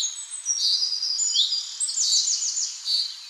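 Birds sing on a rural village morning: a continuous stream of high chirps, whistles and quick trills that overlap one another, bright and fairly loud, with no voices.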